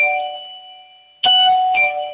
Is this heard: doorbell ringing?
yes